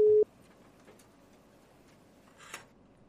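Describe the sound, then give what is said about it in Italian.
A steady outgoing phone-call ringing tone sounds briefly and loudly at the start, then cuts to near silence broken only by a faint click and a short soft rustle. “Partita la chiamata. Vediamo se ci risponde.”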